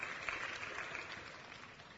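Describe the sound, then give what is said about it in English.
Faint audience applause during a faith talk about being cured of cancer, a soft, steady patter of many hands that eases off slightly toward the end. “You know, that is worth applause.”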